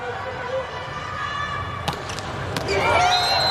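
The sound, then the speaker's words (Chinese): A volleyball serve is struck during a Brazil versus Turkey match, with a few sharp slapping hits cutting through steady arena noise and commentators' voices. “哇，这球出界了，但是很接近，这是攻击性很足的一个发球。”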